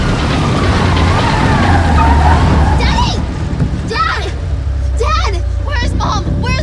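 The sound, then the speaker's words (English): A Porsche car speeds away down parking garage ramps, a steady, loud engine roar over deep rumble that holds throughout, with voices coming in over the second half. “With the headlights beaming, the Porsche speeds away.”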